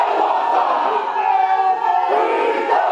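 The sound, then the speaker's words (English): Traditional Maori welcome chant performed for the Kangaroos rugby league team at Narawahe, outside Hamilton, New Zealand. Many voices chant loudly and continuously in a forceful group cry that holds steady throughout. “The team travelled just outside of Hamilton to a town called Narawahe, where they experienced a traditional Maori welcome.”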